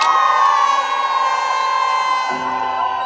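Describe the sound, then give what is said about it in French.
A street protest crowd makes noise against a justice reform bill. The sound is a loud, unbroken din of cheering and shouting mixed with sustained droning tones that fill the whole stretch. “Allez, faites du bruit contre le projet de loi de réforme de la justice.”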